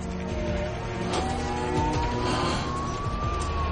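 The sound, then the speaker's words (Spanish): A car engine accelerates hard as the car overtakes and weaves between other cars in a chase, a steady roar with a slowly climbing tone. “Acelera y adelanta a los otros coches haciendo S.”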